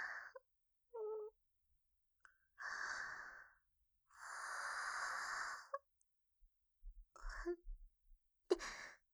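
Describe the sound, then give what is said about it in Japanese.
A drawn-out yawn, a long breathy voiced exhale lasting well over a second, with several shorter soft sighs and breaths scattered before and after it, faint and close with no speech. “私ったらついあくびを。”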